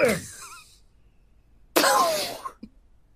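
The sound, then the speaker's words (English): Throat clearing from a person trying to clear hummus smoothie out of the throat: two harsh, raspy bursts separated by a short silence, the second longer, followed by a small faint catch. “Sorry. I got a little hummus smoothie in my throat. Just need to clear it out.”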